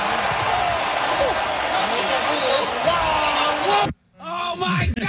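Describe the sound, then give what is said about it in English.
A crowd roars and shouts in a packed stadium in Spain as a bull charges a performer, then leaps a barrier into the audience. The loud, dense din holds steady, then cuts off abruptly near the end before brief noise returns. “leapt over a barrier and went straight for the audience at a packed stadium in Spain. Here's what it sounded like when the bull charges at the performer first and then just abruptly changes and jumps over into the audience.”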